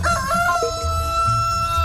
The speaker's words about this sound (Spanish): ¡Elegante gallo a Lacy! ¡Elegante otra vez el gallo!